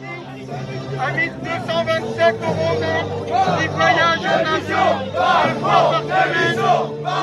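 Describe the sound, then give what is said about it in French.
Yellow Vests protesters rallying at Les Invalides in Paris against police violence, a loud crowd chanting in rhythmic waves over steady babble, the shouts growing stronger and denser as the chant continues. “S'ils ne sont pas très nombreux, un peu plus de 2000 personnes, oui, ils ont le sens de la mise en scène, comme vous l'entendez, les Gilets jaunes, pour brandir en vrac leur colère des violences policières”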